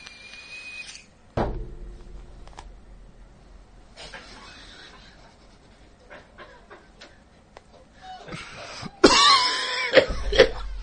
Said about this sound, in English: Okay, don't show me coughing. Please edit that part out.